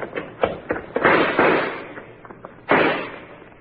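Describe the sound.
Gunshots fired as covering fire during a standoff: a few sharp, booming reports at irregular intervals, each with a ringing tail, then a lull before one more heavy blast.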